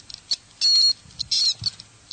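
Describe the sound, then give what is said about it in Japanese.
A handheld electronic toy is shaken so that loose parts inside rattle while it sounds high electronic squeaks like an animal cry. Two louder squealing bursts stand out over light, clicky rattling. “で振るとなんかこの中に入ってるものがカシャカシャいうのと一緒に、 はい、 なんか電子音が鳴るという。 それは鳴き声っていうことですか。”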